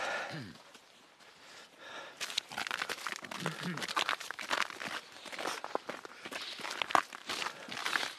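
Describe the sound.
Footsteps of people climbing out of a bobsleigh after a run at a historic bobsleigh race. Many irregular, crunchy steps come with rustling and heavy breathing, starting quietly and growing busier and louder toward the end.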